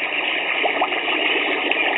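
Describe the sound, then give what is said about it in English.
Natural gas bubbling up through a creek at a gas seep, heard as a steady, dense rushing hiss with fine fizzing texture that stays even throughout. “Because it's really bubbling out here, just like Steve said. It's like a Pepsi bottle.”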